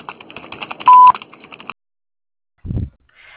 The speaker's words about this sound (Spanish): Después del tono